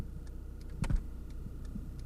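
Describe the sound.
Turn signal ticking inside a Hyundai GLS car cabin: a steady series of faint, evenly spaced clicks over a low hum, with one louder thump in the middle.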